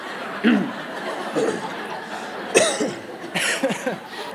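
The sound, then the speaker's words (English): A person coughs to clear the throat before meditation, giving a few short, separate coughs spaced about a second apart, loud against a quiet background. “Second step is cough.”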